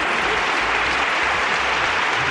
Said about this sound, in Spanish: Muchos aplausos.